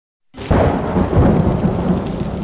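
Thunder rumbles over heavy rain, bursting in abruptly after a brief silence, then a loud, dense wash of rainfall and deep rolling rumble that stays steady to the end.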